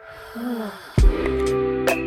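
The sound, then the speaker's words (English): A deep breath in and out, heard as soft, airy breathing with a fuller gust of air partway through, over a faint steady hum. “Deep breath in and out.”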